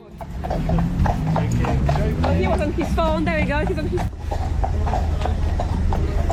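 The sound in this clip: Hooves of a British police horse clip-clop in a steady rhythm of many hoofbeats under continuous voices and crowd chatter.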